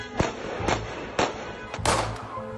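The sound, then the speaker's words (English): A few sharp, loud gunshots ring out in quick succession, fired by a soldier at a Palestinian man after a traffic accident. Each crack is short and punchy, followed by a low hum of background noise. “an Israeli settler try to arrest a Palestinian for a simple traffic accident. And the soldier resorts to violence by shooting this man four times.”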